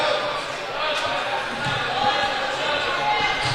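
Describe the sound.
Basketball dribbled on a court during a high school game, a couple of faint bounces under a steady wash of crowd noise.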